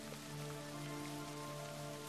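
Steady rain falls in a long, monotonous spring shower, a dense even hiss of drops with no breaks that holds at the same level throughout.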